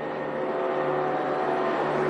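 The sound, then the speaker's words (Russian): An Antonov An-22 Antei heavy turboprop transport plane flies past with a loud, constant roaring drone and a faint tonal hum running through it. “Летит тяжелый турбовинтовой транспортный самолет Ан-22 «Антей».”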